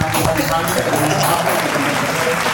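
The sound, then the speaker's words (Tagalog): An audience applauds with dense, continuous clapping that holds at a steady level throughout, while people talk over it. “Palakpakan naman dyan.”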